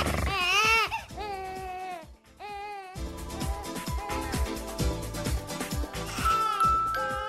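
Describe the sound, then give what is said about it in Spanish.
An infant cries at home in high, wavering wails, several loud harmonic bursts that break off and start again, with denser, busier sound filling the later part. “Al principio se oye muy tierno esto y dices, ay, hay bebé en esa casa.”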